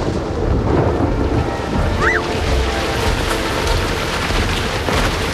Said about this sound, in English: Dark clouds roll over their heads, and rain splashes on the game. Judy, Peter, and Sarah get wet in the downpour.